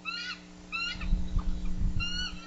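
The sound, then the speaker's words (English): Bald eagles calling at their nest in British Columbia, picked up live by a nest webcam microphone: three short bursts of thin, high, piping chatter over a steady low hum and rumbling noise. “Those are eagles and audio streaming from the Eagle Cam.”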